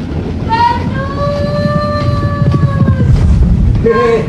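A train travels on rails with a steady, loud rumble throughout. Sustained whistle-like tones sound over it for a few seconds, and a shorter one returns at the end.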